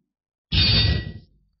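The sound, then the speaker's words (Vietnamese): A sword is drawn with a bright metallic clang. One loud strike rings with a high, sustained tone over a lower body and fades within about a second, with no talk. “Một tiếng kiếm rung keng vang lên”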